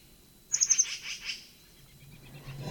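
A faint, distant bird call: four quick, high chirps in a tight run, then two softer trailing notes that fade into quiet background.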